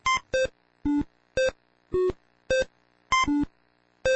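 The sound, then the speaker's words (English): Electronic bleeps from the 1980s video game Breakout as an AI plays it: a brisk, irregular series of short, buzzy square-wave tones, about nine, alternating between higher and lower pitches, clean and steady in loudness with silent gaps between. “This is the sound of Breakout, a 1980s computer game.”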